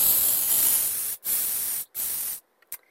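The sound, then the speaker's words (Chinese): Water spraying to rinse off soap: a loud, steady hiss in three long bursts separated by short silent breaks, ending with one brief spurt. “佢哋啱啱先用咗番碱，而家要冲水啊，冲水，打开，哦，冲下先。”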